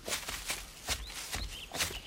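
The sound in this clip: Faint footsteps of people walking fall in an even rhythm of several soft crunching steps, while a few thin bird chirps sound quietly in the background.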